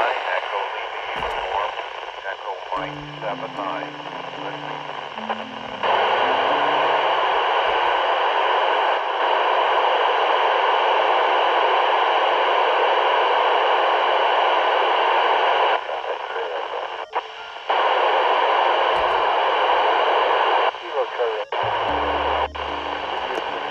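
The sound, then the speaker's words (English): An amateur radio signal from an approaching transmitter is received with a Doppler shift. Steady, loud static hiss runs throughout, with short low tonal bursts near the start and end. A voice breaks through the noise now and then. “It means the frequency is compressed, which makes it higher. And here we go, starting to hear something. I'm receiving on 145.985.”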